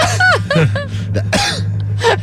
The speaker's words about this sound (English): You have some in your throat? Yeah, clear it out.